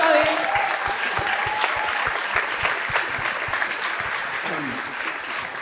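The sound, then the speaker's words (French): Audience applause for the winning team at an evening quiz game, a dense, steady patter of many hands clapping for the whole stretch, with a few voices rising briefly over it. “Vous pouvez applaudir Rita, s'il vous plaît.”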